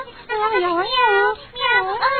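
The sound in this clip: Two drawn-out cat meows in a spoken tale about a cat, each with a bending, wavering pitch. The first is longer and the second rises at its end.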